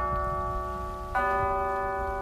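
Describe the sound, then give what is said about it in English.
Century-old town chimes in an island town ring the quarter hour: a sustained, resonant bell tone is struck again about midway, and the fresh lower note rings on clearly with no voices. “In Avalon, the island's largest town, 100-year-old chimes ring out every 15 minutes to indicate the time.”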